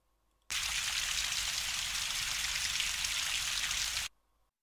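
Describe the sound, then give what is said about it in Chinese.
Shower water sprays steadily in a bathroom, rinsing foam off a body. A dense, even hiss of running water starts abruptly, holds constant for several seconds, then cuts off sharply. “来，让我先帮你把泡沫冲洗掉。”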